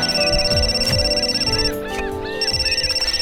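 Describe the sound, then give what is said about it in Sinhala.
Phone ringtone sounding for an incoming call: a repeating electronic melody of quick bright pulses that plays steadily, pauses briefly midway, then resumes. “ආයෙත් පෙරහර ටික වෙලාවකට පස්සේ call එකක් ගත්තා. ඒ වෙලාවේ නම් අසල්ට පුළුවන් වුණා ෆෝන් එක අන්ස කරන්න.”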